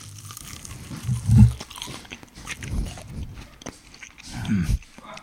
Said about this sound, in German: Garlic Nugget und Käsesoße. Nom, nom, nom, nom, nom.